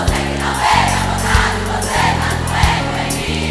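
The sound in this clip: A concert crowd shouting back in response, a broad roar of many voices rising in swells over loud music with a heavy, pulsing bass.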